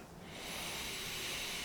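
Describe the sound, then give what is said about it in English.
A deep breath of fresh outdoor air on the Big Island of Hawaii, a soft, breathy hiss that swells over the first half second and then holds steady and faint. “I take a good deep breath into this beautiful air here at Villa Amio on the Big Island of Hawaii.”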